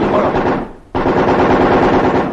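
Sustained automatic gunfire from a 1945 wartime engagement: dense, loud, continuous bursts that briefly thin out near the middle, then resume at full intensity to the end.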